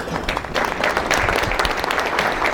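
An audience applauds a comedian's entrance onstage. The clapping is dense and continuous at an even, fairly loud level throughout.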